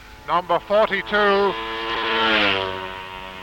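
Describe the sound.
A Greaves racing motorcycle passes during the Manx Grand Prix. A man speaks briefly at the start, then the engine's roar swells to a loud peak and eases off slightly toward the end.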